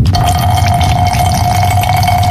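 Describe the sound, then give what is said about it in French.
A man urinates in a cramped airplane toilet during turbulence: a continuous liquid stream trickles and splashes over a steady cabin hum, with no talking. “Bon, eh ben, je crois que je vais aller pisser, moi.”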